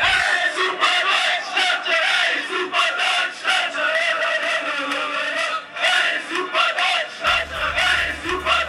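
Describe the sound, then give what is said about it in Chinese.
German football fans at the Sochi stadium cheer during a World Cup group-stage match: a loud, continuous crowd roar that swells and dips in rhythmic waves of chanting and shouting. “不信，您就来听听来自索契现场的德迷声吧。”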